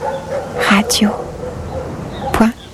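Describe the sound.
A dog gives a few short, high-pitched yips and whimpers, with yelping upward and downward pitch sweeps over a steady low background noise.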